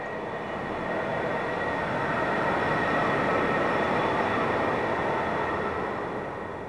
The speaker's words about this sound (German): Die U-Bahn kommt, ich steige ein, der Zug fährt und fährt, es wird dunkel.